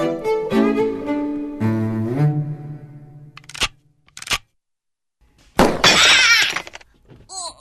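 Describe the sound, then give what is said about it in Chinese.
A pair of eyeglasses breaks with a loud, bright crash of shattering glass lasting about a second. It comes after a sustained tonal sound that steps down in pitch and two short, sharp knocks. A few faint clicks follow the crash. “糟了，眼镜破了。”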